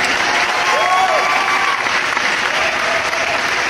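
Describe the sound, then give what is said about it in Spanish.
Applause from a crowd, a dense, steady patter of many hands clapping that stays at an even, fairly loud level throughout. “Así es que fuerte el aplauso porque están súper, súper atentos.”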